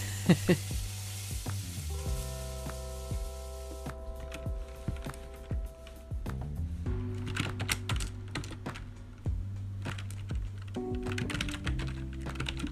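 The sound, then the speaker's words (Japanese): Rapid typing on a computer keyboard while writing a script late at night after dinner: many quick, uneven clicks over a soft, sustained tonal background. “食後は台本を書く時間に当てていますもうひたすらに文字を打つ黙って文字を打つ”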